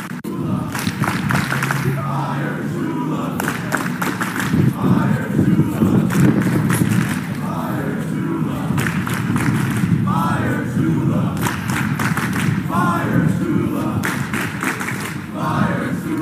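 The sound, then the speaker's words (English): A Fire Shula protest crowd on a college campus in Columbia: many voices shout and chant continuously, with steady rhythmic thumping throughout. “too bad you're not in Columbia, where a Fire Shula protest has begun on campus, and this is how it sounds.”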